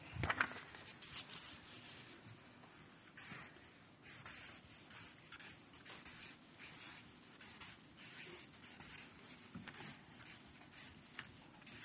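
Someone writes something down, producing faint, scratchy strokes and light taps that continue in an irregular rhythm for about twelve seconds, with a slightly louder scrape at the start.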